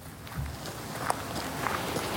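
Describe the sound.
Footsteps walking toward a dark-brown wooden hunting chalet in the middle of the Veluwe, soft and irregular over a steady hiss of background noise.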